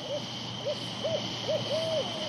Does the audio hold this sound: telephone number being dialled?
no

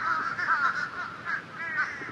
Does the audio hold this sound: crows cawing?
yes

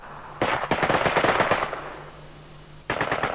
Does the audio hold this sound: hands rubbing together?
no

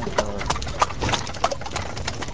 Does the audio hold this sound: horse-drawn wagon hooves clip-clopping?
yes

